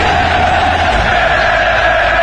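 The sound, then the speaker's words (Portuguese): Football fans shouting together in a sustained roar, a dense, even wall of massed voices at constant loudness from start to finish, with no single voice standing out. “O grito da torcida.”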